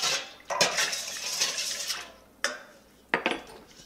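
A utensil clinks and scrapes in a cup while a foot soak of green tea, apple cider vinegar, salt and lavender essential oil is mixed, with a few sharp clinks over a steady stirring rustle.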